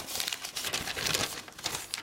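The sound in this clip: A paper department-store shopping bag with a rose-print wrapping design is crinkled and handled, giving a quiet, continuous rustle of irregular crackles and soft crumples.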